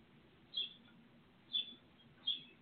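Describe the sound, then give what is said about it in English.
Birds chirp in a park: three short, high chirps spaced about a second apart stand out over a faint, steady low background. “I hear the birds chirping. There are so many birds in this park.”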